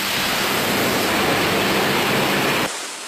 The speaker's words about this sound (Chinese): 工人们正在侧面的岩壁上打孔泄水，水流冲的钻机都无法作业。